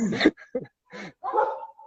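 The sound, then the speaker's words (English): Dogs barking in a few short, separate bursts, some sharp and others drawn out into a whining tail, heard alone without talk over them. “I'm sorry about the dogs barking.”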